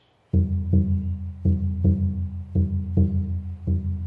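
A Native American drum beaten in a heartbeat rhythm: eight deep, resonant strokes fall in four even pairs, and a low ring sustains between the beats.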